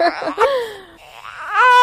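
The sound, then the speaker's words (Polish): A baby cries in a few high, wavering wails, one long cry sliding downward and a later one rising, loud and strained with breaks between bursts. “No teraz słychać mi, że dziecko jest.”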